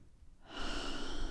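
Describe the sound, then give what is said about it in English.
A big exhale through the mouth: a steady, breathy rush of air that starts partway in and holds strong and even to the end, with no talking. “let's give a big exhale through the mouth.”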